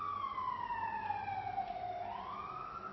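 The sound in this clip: An ambulance siren sounds as one long, loud wailing tone. Its pitch slides slowly downward, then rises again near the end, and no voices are heard.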